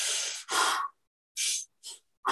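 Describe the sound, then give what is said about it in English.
Rhythmic breathwork breathing through the mouth, heard as five short, airy, forceful breaths separated by uneven pauses. “And I would breathe to the rhythm of the song, right? So you can keep up with it. And the breath would look like,”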